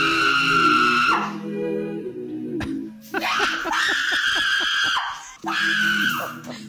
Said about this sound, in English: That is the sound of an adult male screaming and yelling and losing it because he found something in his bedroom that exactly. creeped him out.